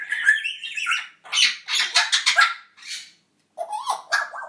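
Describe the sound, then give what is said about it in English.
Several pet parrots squawk together in loud, harsh screeches, with bursts of overlapping calls separated by short gaps. “I know I've done lots of parrot boos, but it's so nice to hear Frankie joining in with the rest of them today.”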